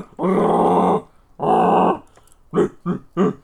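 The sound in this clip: A human voice imitates Wookiee growling in five loud, harsh, throaty bursts: two long sustained growls followed by three short, clipped grunts.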